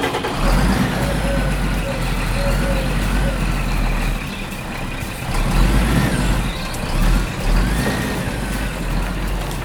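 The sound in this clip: Heavy truck engine rumbling as it pulls away from a construction site, heading off to fetch gravel; a steady, loud, low drone with a few swells in power.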